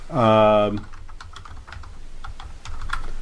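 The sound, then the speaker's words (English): Fast, light clicking of typing on a computer keyboard patters on after a brief spoken word, irregular and fairly soft. “I'm not going to be able to do that. I can't type and talk at the same time.”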